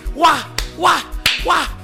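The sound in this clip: A crowd claps in unison, three sharp, evenly spaced claps cutting through chanting voices at a public meeting.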